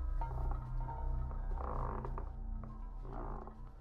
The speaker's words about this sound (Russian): Скрипят полы и плачет прялка.